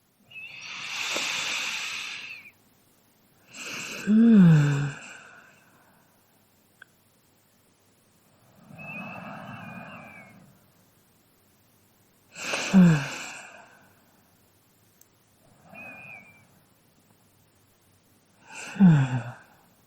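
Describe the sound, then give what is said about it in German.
Three deep breaths, each a long hissing inhale followed by a shorter, louder exhale carrying a low voiced sigh, separated by quiet pauses, during a guided reflective exercise. “3 tiefe Atemzüge.”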